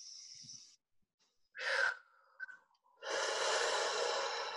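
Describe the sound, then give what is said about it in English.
Deep breaths drawn in: a soft, airy hiss, then a sharper breathy intake, and finally a long, steady, rushing inhalation lasting more than a second. All of it is fairly faint, with no talking. “Take a deep breath in.”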